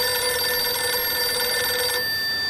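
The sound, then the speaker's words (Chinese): A telephone rings with a steady, bright electronic tone that holds level throughout and breaks off shortly before the end. “孙连仲赶紧给池丰城打了电话：”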